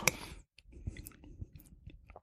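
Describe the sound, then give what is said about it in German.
Faint, irregular chewing of a truffle-flavoured dish, with soft wet smacks and small crunches over about two seconds and no talk. “Sehr fein. Also den Trüffel schmeckt man tatsächlich raus.”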